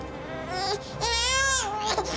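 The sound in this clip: A baby girl crying: loud, sustained wailing with a wavering pitch that swells in the middle, broken by brief catches of breath.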